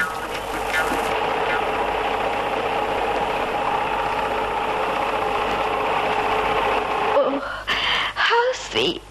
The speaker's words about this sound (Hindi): मैं इस कंपनी की मशीन लाया हूँ। चलती भी बहुत हल्की है। मेरे तो इतना ही चलाने में हाथ उठने लगे, दरअसल कभी चलाई नहीं है ना।